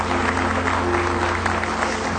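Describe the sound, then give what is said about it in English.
A church audience claps in praise, a dense, steady patter of many hands that holds at an even level throughout. “clap of praise this morning.”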